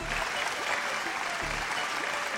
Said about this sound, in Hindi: तालियां।